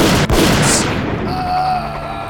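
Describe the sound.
Gunfire blasts into the floor during a struggle over a gun, a loud, dense burst with a long, ringing decay.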